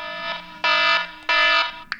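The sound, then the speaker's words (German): An old horn-style phone ringtone sounds as buzzy, honking electronic blasts. A quieter sustained tone comes first, then two loud, steady blasts of equal length, then a brief final blip. “Auswahl, alte Hupe. Auch die alte Hupe habe ich angeklickt, aber die möchte ich auch nicht haben als Klingelton.”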